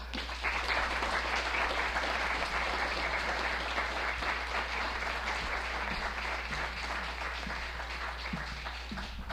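Audience applause welcomes a poet to a reading, a steady, dense wash of many hands clapping that holds at an even level throughout.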